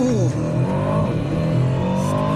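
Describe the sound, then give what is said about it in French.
A 707-horsepower car's engine roars through a launch control start, a loud, sustained, high-revving drone whose pitch climbs and shifts as it accelerates. “Pour ça, je te propose qu'on fasse un petit launch control. Bon juge de paix, ouais. On va tester ça tout de suite. Allez, pied sur le frein, pied sur l'accélérateur.”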